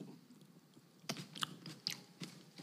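Chewing and biting while eating grapes at a table: a few faint, moist crunching bites with soft mouth sounds between them, no voices.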